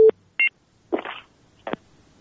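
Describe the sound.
Telephone line tones from a dropped phone call: two short, clipped electronic beeps, then two harsher, scratchy bursts of line noise separated by brief silences. There is no talking.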